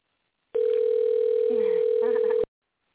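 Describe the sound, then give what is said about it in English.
A telephone tone sounds while a call is placed back: one steady, unbroken electronic tone lasting about two seconds, with faint voices audible beneath it. “You calling him back? Yeah, I'm calling him back.”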